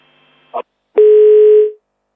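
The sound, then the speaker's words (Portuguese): A telephone tone sounds after a caller's line drops. A faint click comes first, then a steady single-pitched tone lasts under a second and fades out into silence. “Perdemos esta ligação com o ouvinte António, que ligava-nos a partir de Inhambane.”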